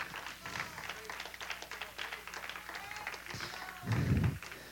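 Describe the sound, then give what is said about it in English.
An audience claps hands in praise at a worship service, many quick claps in a fairly quiet patter, with a low thump near the end. “Give God a hand clap praise.”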